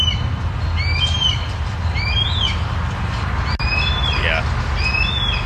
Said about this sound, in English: Yeah, that's a red tail. Funny, I'm realizing that's a red-tailed hawk call that blue jays imitate a lot.